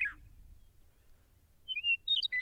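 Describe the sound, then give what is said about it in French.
Birds chirp outside in the morning: one brief, high chirp at the start, then a quiet pause over a low hum, then a short cluster of quick, thin tweets near the end. “C'est le matin. Il y a des oiseaux qui chantent dehors.”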